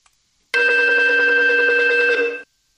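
A telephone rings for an incoming call: a single loud, steady electronic ring about two seconds long with bright, buzzing harmonics, starting abruptly and then cutting off.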